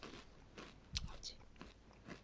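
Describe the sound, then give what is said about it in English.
Biting into peanut-covered squid balls gives faint crunching bites and chewing, a few soft crackly crunches spread across the moment, quiet and close. “These are, if you can't see it here, you're not on a live shot, but it's peanut-covered squid balls. I'm going to eat one right now. We're getting a little ASMR action here, folks”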